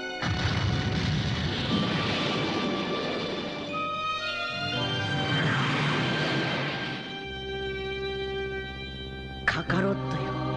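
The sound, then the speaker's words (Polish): Fireworks explode in an animated scene as two long, broad rumbling bursts over a sustained musical tone, followed by a short sharp crack near the end. “Spójrzcie na te piękne fajerwerki.”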